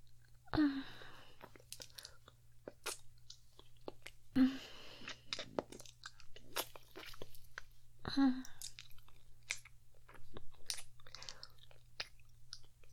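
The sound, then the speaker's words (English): Wet licking and sucking mouth sounds, soft and close, with three louder wet smacks spaced several seconds apart among many small clicks and squishes. “How about I lick you now? And give you a little suck.”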